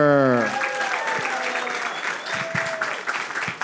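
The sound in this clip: Audience applause welcoming guests onto a talk show, a dense, continuous wash of clapping that holds steady for several seconds.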